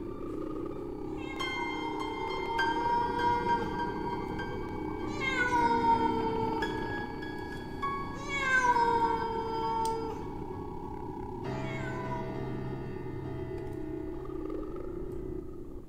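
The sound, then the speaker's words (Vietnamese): A cat yowls mournfully outside, giving several drawn-out, wavering meows at irregular intervals over a low steady background hum, fairly faint overall, with no talk. “Đâu đó ở bên ngoài kia có tiếng con mèo kêu lên những tiếng ai oán đến xót cả ruột”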